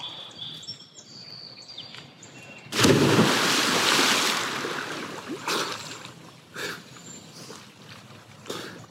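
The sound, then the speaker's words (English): A loud splash as a person jumps into water for the first swim of summer, a sudden broad burst that fades over a couple of seconds, followed by a few smaller splashes. “I'm going to take the first swim of the summer right now. Here goes.”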